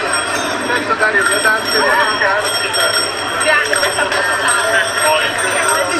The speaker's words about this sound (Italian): E giù si scampanella